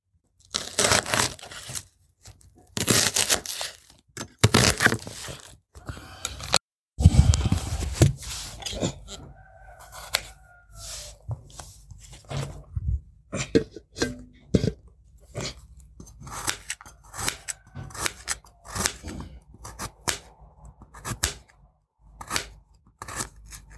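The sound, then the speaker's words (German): Cutting sounds during preparation for a kettle-grill barbecue: many crisp snips and tearing noises in an irregular rhythm, separated by short pauses. “dann würde ich sagen, äh, fange ich jetzt schon mal an mit Schneiden”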